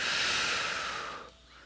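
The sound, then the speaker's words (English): A single deep breath makes an airy hiss that holds steady for about a second, then tapers off into near silence, with no talk. “Take in a deep breath, please. And on the exhale, we let those old experiences go.”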